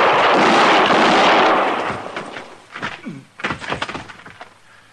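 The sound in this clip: Gunfire in a Western-style radio drama shootout between a marshal and a gunman: a loud, sustained blast fades over about two seconds, then a few sharper cracks and thuds follow.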